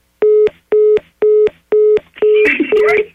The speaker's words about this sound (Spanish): A ver, permíteme, me estoy llamando. Mejor para que él se lo diga. Oh, sí. Y conecta la llamada.